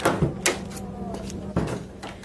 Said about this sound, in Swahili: Sawa, funga mlango ukitoka.